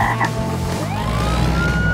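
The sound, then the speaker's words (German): A cartoon frog croaks as it races past on a package, like a surfboard, in an animated children's story. The croaking is dense and raspy over a busy, noisy background, and a whistle-like tone slides upward partway through. “Doch da sauste der Frosch bereits an ihnen vorbei.”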